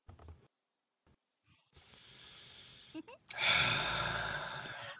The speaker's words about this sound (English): The deep breaths of the DM.